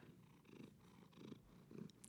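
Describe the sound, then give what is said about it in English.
Soft purring from a chunky cat lying on someone's lap and chest, very faint, a low rumbling with gentle rhythmic swells as it breathes in and out. “I wonder if you can hear the cat purring in the microphone.”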